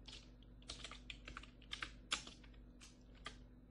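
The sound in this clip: Soft typing on a newly replaced computer keyboard: many light clicking keystrokes in short irregular clusters separated by brief pauses, quiet overall with a few sharper taps, and no talking.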